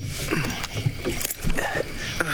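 A rowing boat moving through water, with steady sloshing, dipping and gurgling water sounds that are fairly loud and continuous.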